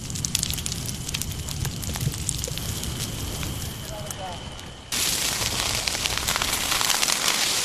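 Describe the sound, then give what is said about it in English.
Trees burning in a wild forest fire in California produce dense, continuous crackling and roaring, steady at first and then jumping noticeably louder about two-thirds of the way through. “That is the sound of trees burning in a wild forest fire in my home state of California.”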